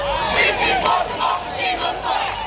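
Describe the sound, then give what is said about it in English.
Crowd cheering arrested protesters in Melbourne: loud shouts and whoops from many voices rise and fall in repeated swelling waves, with no quiet gaps. “In Melbourne, arrested protesters were cheered on.”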